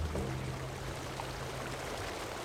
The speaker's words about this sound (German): zeigt sich der rauschende Strom, der wenige Schritte neben dem Einstieg durch eine Betonrinne sprudelt und wenig später in einem tosenden Wasserfall in Richtung Kläranlage verschwindet.